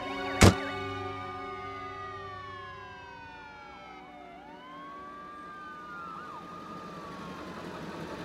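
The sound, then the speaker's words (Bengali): An ambulance siren wails, faint and alone: a sharp click, then a smooth tone that dips down and sweeps back up over a low rumble. “অ্যাম্বুলেন্সে বসে বসেই রায়”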